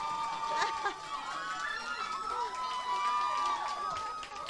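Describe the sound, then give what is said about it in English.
Crowd cheering and shouting as a pop singer arrives at a radio station VIP lounge event: a continuous mix of excited whoops and high-pitched yells that holds steady throughout. “Are y'all ready? Make some noise for Liam Payne!”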